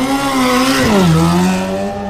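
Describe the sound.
A car engine roars as the car speeds away, a loud, steady harmonic drone whose pitch dips once around the middle and then holds level before easing slightly at the end.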